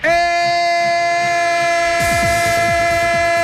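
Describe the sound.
Sustained, steady train horn chord used as a sound effect. A rhythmic clatter like wheels on rail joints joins in about two-thirds of the way through, and both stay loud to the end.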